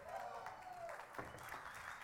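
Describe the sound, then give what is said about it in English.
Faint, half-hearted applause with light cheering from an audience at a church talk, a thin, low-level patter of clapping that carries on briefly without building. “Oh, that was anemic, man. The Colorado fans cheered louder than that for a losing effort yesterday.”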